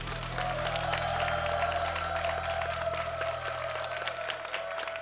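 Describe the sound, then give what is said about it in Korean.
A church audience applauds in thanksgiving during a worship service, a dense, steady wash of many hands clapping that holds at an even level throughout. “은혜 주신 하나님께 감사의 박수 드렸으면”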